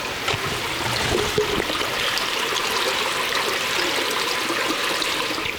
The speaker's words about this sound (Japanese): こんな、清らかな水が流れています。 坂本地区には町の中を清らかな水が流れ、その音を聞いているだけで癒されます。